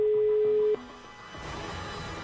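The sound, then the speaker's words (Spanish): A telephone ringback tone on an outgoing call: one steady, mid-pitched tone that cuts off after under a second, followed by a low hissing line. “El teléfono da tono.”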